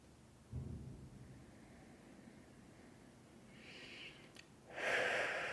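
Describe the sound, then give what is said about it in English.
Deep breathing, faint and slow, with a few soft breaths drawn in and let out near the end after an earlier low puff of air. “Just taking some deep breaths.”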